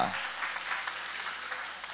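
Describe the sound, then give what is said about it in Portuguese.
Applause from a church audience during a worship service: a steady, dense patter of many hands clapping that holds at an even level for about two seconds. “Toma o vosso assento, guarda a Bíblia e aplaude o nome daquele que vive para sempre. Isso, Jesus, aplaude a ele com alegria.”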